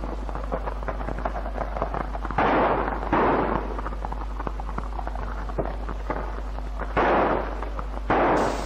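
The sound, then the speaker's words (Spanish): Gunfire from a police officer's .45 pistol during street unrest in Córdoba: many brief, sharp cracks scattered over a noisy recording with a steady low hum, broken by a few louder bursts of rushing noise. “Observamos a un policía que tira con una pistola 45.”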